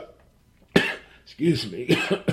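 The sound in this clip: Coughing from someone who swallowed coffee the wrong way: a sharp, loud cough burst, then further spluttering, throaty coughs and clearing sounds.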